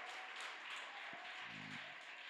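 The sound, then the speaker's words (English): A church audience claps hands in worship for Jesus, a dense, steady wash of many hands that continues without a break through the whole moment. “Yes, let's clap hands for Jesus.”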